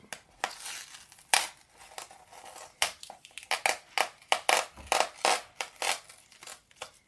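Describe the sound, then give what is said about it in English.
Scissors cutting open packaging during an unboxing of a tea parcel, a long run of sharp, crinkly snips and rustles in irregular bursts, growing denser toward the end, with no talking. “Let me use the scissors to try it.”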